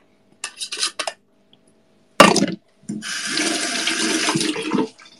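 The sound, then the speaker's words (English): Water runs from a tap as hands are washed during food preparation with lime and cilantro: a few short splashes, then a sharp gush and a steady rushing stream for about two seconds. “Wash the hands.”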